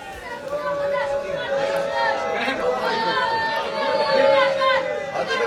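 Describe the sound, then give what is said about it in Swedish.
A large protest crowd in central Jerusalem produces a dense, continuous hubbub of many voices, with chatter and calls overlapping. It swells somewhat louder toward the end. “Ja, det ni hör där är från en stor protestaktion som började i centrala Jerusalem för en liten stund sedan.”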